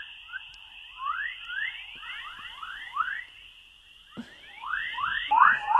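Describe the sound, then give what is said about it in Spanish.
Sound of the Earth recorded by two NASA space probes: many quick rising chirping whistles repeating in an uneven chorus over a steady, thin high tone, with a sharp click near the end. “Pues es el sonido de la tierra. Y ¿que la tierra suena? La tierra suena así. Estos son dos sondas de la NASA”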